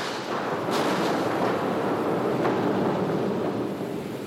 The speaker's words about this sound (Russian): И в ту же минуту раздался взрыв оглушительной силы.